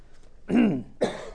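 A person clears their throat and then coughs: two rough, fairly loud bursts in quick succession with no talking around them.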